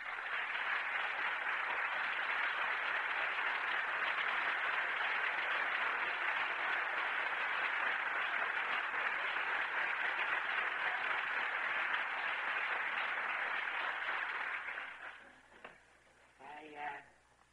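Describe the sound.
Audience applause in a standing ovation welcomes a guest professor to the lectern, a dense, even wash of clapping that holds for about fifteen seconds, then thins out and tapers away as a voice begins.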